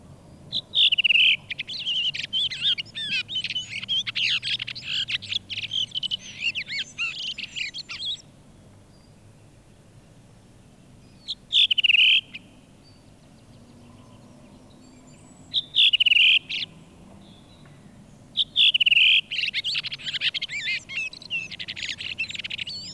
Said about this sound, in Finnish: punakylkirastas